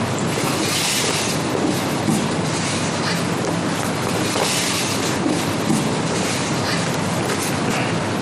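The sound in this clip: A train rolling along the rails, a loud, continuous rumble with a rhythmic clickety-clack of wheels over track joints, steady throughout with no voices.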